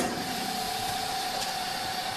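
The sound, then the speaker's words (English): A chamber vacuum sealer runs after its lid is closed, its pump giving a steady, faint mechanical drone with a constant humming tone that stays level throughout. “I think everybody keeps their chamber vacuum sealer in their entry closet. I'll close the lid. It's going to start doing its thing. It takes about a minute. Here we go.”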